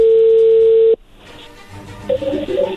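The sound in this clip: A loud, steady telephone dial tone hums while a call is being placed, then cuts off abruptly after about a second, leaving faint line noise and a few brief tones.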